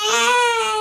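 A newborn baby cries in one brief, steady, high-pitched wail with a strong tonal quality, loud and unbroken, with no talking.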